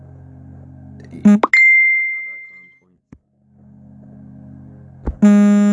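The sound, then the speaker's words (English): A mobile phone alert goes off with a bright chime, then a high, pure tone that rings on and slowly fades to silence, and a second chiming burst follows near the end. “excuse me, sorry, my phone was going off there.”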